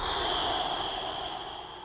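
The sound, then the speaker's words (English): A long, soft exhale through the mouth during a calming breathing exercise makes a steady, airy rush that holds evenly and tapers slightly toward the end. “Let all the air out through your mouth.”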